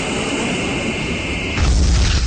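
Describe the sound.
A bomber aircraft roars in a radio drama, a steady rushing engine noise that gives way to a deeper, louder rumble near the end.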